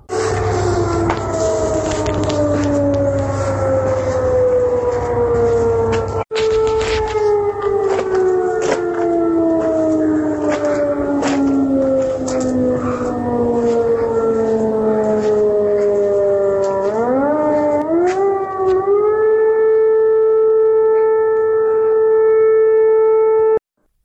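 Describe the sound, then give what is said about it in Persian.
A continuous air raid siren wails near Isfahan, with scattered sharp cracks over it. The loud tone slides slowly downward for a long stretch, then climbs again and holds a steady pitch to the end. “صدای شلیک پدافند هوایی در اطراف اصفهان و آژیر ممتد”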